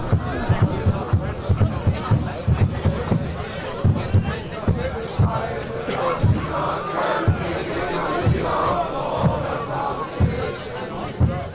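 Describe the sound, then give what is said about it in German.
Football fans in a stadium chant and make music, a steady, loud crowd roar driven by a regular low rhythmic beat that continues throughout. “Ah, die Fans machen das, ja? Ja, ja. Hörst du es, wie die Stimmung machen? Ja. Die machen viel Musik hier. Super. Fans.”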